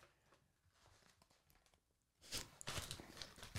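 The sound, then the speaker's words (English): Crisp crunching and chewing of a Pepperidge Farm Milano double dark chocolate cookie, starting after a quiet stretch and continuing as a dense, irregular run of crackly bites and munches. “Okay, what you're tasting right now is a Milano double dark chocolate.”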